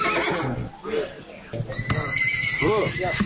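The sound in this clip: A horse neighs at a village livestock bazaar where horses are sold among other animals: a couple of wavering whinnies rise through the steady talk of people nearby.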